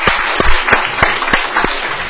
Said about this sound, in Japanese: それから今日もたくさんの方がおられますので、いつも一回ごとにこうなんか拍手してます。